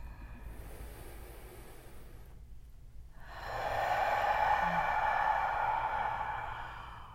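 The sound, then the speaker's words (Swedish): A deep breath taken during a guided meditation: after a quiet stretch, a soft, airy rush swells in and holds steady for several seconds before easing slightly. “Vi tar så ett djupt andetag.”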